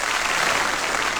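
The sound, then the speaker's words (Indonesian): Audience applause at a Malaysian event celebrating the national contingent reaching six gold medals at the 2026 Aichi-Nagoya Asian Games, a brief, dense and even burst of clapping. “Kita tepuklah lagi.”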